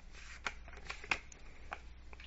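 Cards from an oracle deck being handled as one is drawn: quiet, papery shuffling and sliding with a few sharper snaps, one more prominent near the middle.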